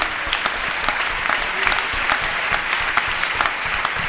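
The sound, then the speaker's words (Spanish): Audience applause welcoming a bishop at a church gathering in Argentina: steady, dense clapping from a crowd, sustained evenly throughout with no voices. “recibimos con un aplauso al Señor, al obispo Ismael Arellano.”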